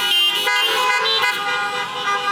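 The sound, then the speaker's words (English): Many car horns honk at once at a Sunday church gathering: a loud, dense blare of overlapping tones held steadily throughout with no clear pauses. “Let's give them a honk of gratitude.”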